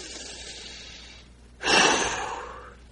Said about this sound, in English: And we take another deep breath.